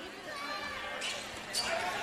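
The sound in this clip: A basketball is dribbled up the court during a Catholic school game, the bounces soft, regular thuds under a steady wash of gym noise.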